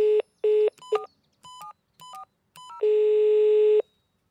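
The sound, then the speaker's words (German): A telephone dial tone pulses in two short bursts, then a quick series of keypad dialing beeps at shifting pitches, ending in a loud sustained tone of about a second on an outgoing call. “Alexander sieht ihm ratlos hinterher und ruft Leni an.”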